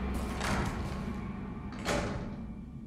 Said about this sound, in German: Öffnen Sie die Tür. Das Schloss schaltete auf grün und er betrat das Labor.